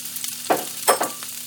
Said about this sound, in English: the onion is sliced and then pushed out to form its rings. So there we go, that's gone in the pan.